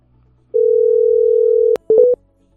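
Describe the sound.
Telephone dial tone while a call is being placed: a loud, steady single-pitch tone lasting just over a second, then a sharp click and a short pair of higher beeps before silence.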